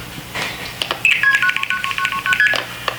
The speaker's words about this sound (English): So you'd hear these noises if you dialed a long distance call.